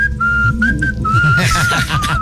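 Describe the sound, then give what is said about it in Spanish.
A whistled tune plays as background: a clear, high whistle holding mostly steady notes with small slides, over a continuous low rumbling bed of sound. “si van a poner silbidos de fondo, pónganle.”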